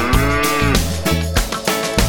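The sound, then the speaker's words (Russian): Cow mooing on a farm: a few low, drawn-out harmonic moos in quick succession, loud and clear, with no talking. “На все вопросы, кто, зачем и почему, корова отвечает просто”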